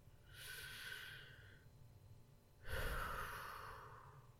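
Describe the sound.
Deep breathing as a person tries to calm down: two long, airy breaths separated by a short pause, the second fuller and louder, with no talking.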